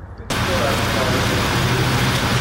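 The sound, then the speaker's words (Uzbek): Road traffic stuck in a jam on the streets of Kyiv: a dense, steady roar of car engines and road noise that starts abruptly and holds at an even level. “Poytaxt yo'llarida ham yirik tirbandliklar yuzaga keldi.”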